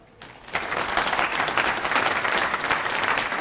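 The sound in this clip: Applause from a conference audience welcomes a speaker to the lightning talks. Many hands clap in a dense, even clatter that starts abruptly and holds at a steady level.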